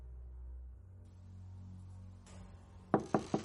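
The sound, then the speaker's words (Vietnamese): Three sharp knocks on a room door near midnight come in quick succession at the very end, loud against a faint steady hum that fills the quiet before them. “Gần 12 giờ đêm, tiếng gõ cửa phòng của ông Vương vang lên.”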